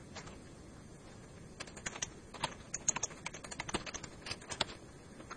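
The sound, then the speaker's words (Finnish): Code being typed on a computer keyboard. It starts nearly silent, then a steady run of many soft, quiet key clicks follows at an uneven rhythm. “Jos mä nyt haluan vaikka tulostaa tuon merkkijonon tuosta, niin kirjoitan vaan tuonne, että”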